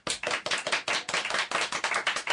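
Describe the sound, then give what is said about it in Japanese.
Applause from a small audience voting for a contestant's line in a comedy line contest: a short burst of overlapping hand claps in a quick, dense, fairly even patter. “先行小田くんのセリフが良かったと思う人は拍手。”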